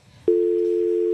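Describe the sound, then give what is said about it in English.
A landline telephone tone after a call is hung up: one steady, continuous pitched tone that cuts in abruptly after a moment of faint noise and holds unbroken at a constant level. “I didn't think that sound was still made by phones. Yeah, certainly. I think he's on a landline.”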